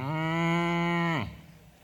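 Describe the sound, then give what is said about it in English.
A person's voice imitates a cow's moo during a sermon: one long, steady, low droning call held for over a second, then sliding down in pitch as it ends, alone. “The cow goes,”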